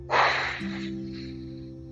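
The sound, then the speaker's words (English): A long, forceful exhale during a breathing exercise. The rush of breath is loudest at the start, then thins and fades over a steady low tone. “And really exhale. Biggest exhale of the day.”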